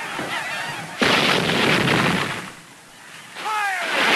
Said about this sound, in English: A shell explodes over the field.